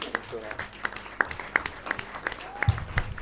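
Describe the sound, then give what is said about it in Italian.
An audience at a political book fair applauds, with sparse, sharp claps landing at a fairly even pace while people talk. “Conchetta, a cui direi di fare un grande applauso”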